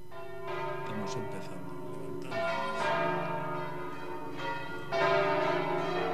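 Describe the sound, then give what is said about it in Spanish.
Heavy church bells being swung up and rung by hand by a team of bell-ringers during a Corpus celebration. Rich, overlapping metallic peals sound continuously, with many resonant strikes that swell louder toward the end. “Se están levantando las campanas hay que levantarlas, hay que ponerlas en marcha. Son campanas muy pesadas”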